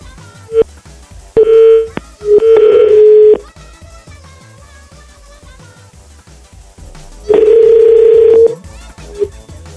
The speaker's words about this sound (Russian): Сейчас я ей пытаюсь звонить.